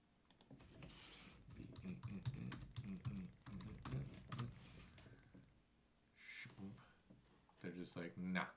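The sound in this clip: Typing on a computer keyboard produces rapid bursts of light clicking in uneven runs, with people talking throughout and pausing in the middle.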